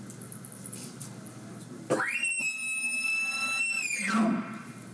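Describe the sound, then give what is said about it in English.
A diaphragm call imitates an elk's challenge bugle: a tone sweeps up sharply into a loud, high whistling note with bright overtones, is held steady for about two seconds, then drops off abruptly. “So when I'm bugling the challenge bugle, which again sounds like this,”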